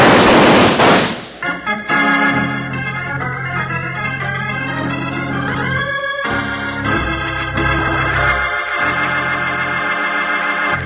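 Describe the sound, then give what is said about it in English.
Gunfire in a radio western drama opens with a loud, noisy burst of shots lasting about a second, then gives way to steady dramatic music. “Somebody shot a hole in my shirt while I was putting it on. You're lucky they didn't shoot a hole in you. There they are, up on the side of the hill. I'll teach them to shoot up my shirt.”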